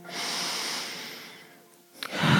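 Deep breathing in and out: a long, airy breath lasts more than a second, fades into a brief lull, then another breath swells at the end.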